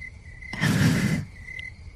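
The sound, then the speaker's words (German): Cricket chirping used as a sound effect: a steady, thin, high chirr runs throughout, briefly masked midway by a short, broad rush of noise. “Grillenzirpen.”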